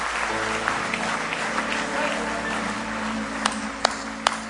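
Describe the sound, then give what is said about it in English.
A church audience claps in praise, a sustained, dense wash of hand clapping with crowd noise and voices mixed in, ending in a few sharper, louder claps. “Give him one more hand clap of praise tonight if you love him.”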